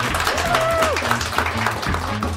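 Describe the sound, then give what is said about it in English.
Audience at a magic show gives a round of applause, a broad steady wash of clapping with a voice talking over it. “Jennifer, give everyone, Jennifer, a round of applause.”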